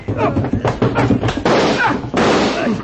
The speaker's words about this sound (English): I brought my hands up to undo the watch strap, stepped quickly to the side, and let Diego have a left in the solar plexus.